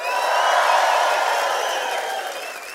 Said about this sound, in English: can you make some noise as if you are actually excited to be at church today? At every location, one, two, three.